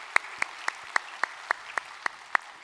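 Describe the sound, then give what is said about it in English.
Steady hand claps welcoming a church audience into a study session: nine sharp, evenly spaced claps at a brisk, regular pace over a faint background hiss. “So if you would put your hands together, welcome them into our time of study here today.”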